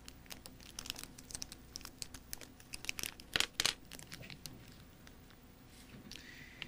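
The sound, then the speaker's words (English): A chewing gum wrapper is peeled open with faint, irregular crinkling and tearing. Soft crackles run throughout, with a brief louder burst midway. “Go ahead. Do it. Unwrap the gum you have in front of you.”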